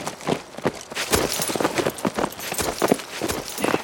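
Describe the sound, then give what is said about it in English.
Horses ridden slowly down a trail from the top of a mesa, their hooves clip-clopping in a steady, overlapping rhythm of many beats at a deliberate, unhurried pace. “he glanced up to see Skinner and the others riding slowly down the trail that led from the top of the mesa.”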